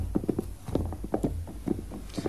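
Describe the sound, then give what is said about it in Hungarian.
Horses' hooves as riders climb a castle hill: a steady, even clip-clop of many hoofbeats in a brisk walking rhythm, fairly loud, with no voices. “Ahogy felfelé lovagoltak a várhegyen, egy ismeretlen lovas csatlakozott hozzájuk”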